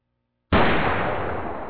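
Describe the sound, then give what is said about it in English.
A gun going off unintentionally: one abrupt, loud blast that sounds alone and rings on in a dense, rumbling roar that barely fades. “Oh, gun went off the second time. Sorry about that.”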